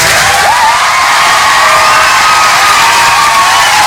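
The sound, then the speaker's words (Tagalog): A crowd applauding and cheering loudly for an engineer from a construction company, with dense clapping under sustained shouts and rising whoops that carry over the full stretch. “Palakpakan to si engineer.”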